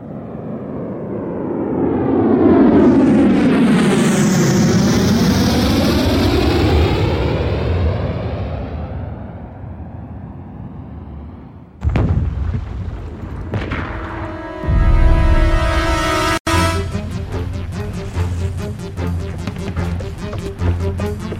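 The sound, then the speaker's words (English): A rocket launch roars with a long rushing, sweeping whoosh that shifts in pitch for several seconds. Sudden loud bursts follow, then a ringing, metallic tonal tail. “No! The rocket!”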